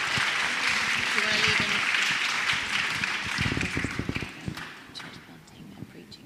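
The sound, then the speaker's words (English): Audience applause for a panel at a youth seminar: steady, fairly soft clapping that runs for about four seconds, then thins out and fades, with a few dull thumps near the end. “can we give our panel a round of applause?”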